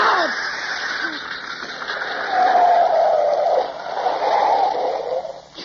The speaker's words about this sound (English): What happened? Yeah, sounded like a flat. What a rotten break. Yeah, it's a flat, all right. Left front wheel.